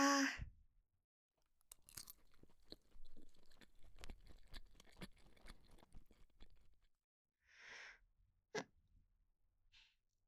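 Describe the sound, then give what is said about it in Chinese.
Someone eats a piece of cake with quiet chewing: many soft crunches and smacks in an irregular run, a pause, then a few more bites and mouth sounds. “我要先切一块蛋糕喂你。”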